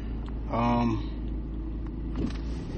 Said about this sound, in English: I'm driving too, so I'm kind of paying attention to the road.